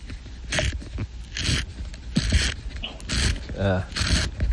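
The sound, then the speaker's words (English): Pencil being sharpened, heard as a few bursts of dry grinding and scraping at a steady, even pace. Each stroke is short and crunchy, with a faint creak between them. “And listen, though, to a pencil sharpening. Here we go.”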